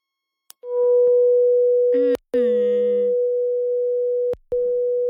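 A telephone line tone sounds after a call cuts off: a loud, steady mid-pitched tone runs almost the whole clip, broken by two short clicks, with a brief buzzy overlapping sound near the middle.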